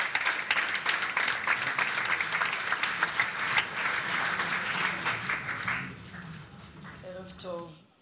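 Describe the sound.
A theatre audience applauds as an actress takes the stage: steady, dense clapping that thins and fades over several seconds before a voice begins near the end.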